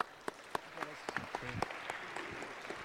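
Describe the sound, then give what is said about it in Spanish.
An auditorium audience at a political and cultural forum on social protest claps faintly and sparsely, with scattered, uneven hand claps rather than full applause. “Un aplauso, por favor.”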